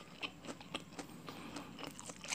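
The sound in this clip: Crunchy biting and chewing of fried catfish with chili sambal: a series of faint, crisp crunches at an irregular pace. No one talks.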